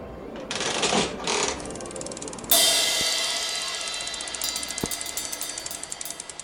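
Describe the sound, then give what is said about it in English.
Coin-operated slot machine being played: a whirring, ratcheting mechanism runs, then a loud metallic clatter strikes and gives way to rapid, steady clicking that slowly fades. “Maybe I should give the slot machine another go. I have a second, after all. A goodbye coin for the trouble.”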